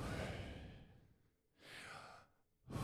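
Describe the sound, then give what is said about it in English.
Deep breathing in and out, performed in a meditation setting to imitate the sound of the divine name: a long airy breath, a pause, a second breath, then a third just beginning. Soft and breathy, with no talk. “It's actually in and out. And the first words you say when you're born is you take your first breath, and it's Yahweh, right? Like, so it sounds like this.”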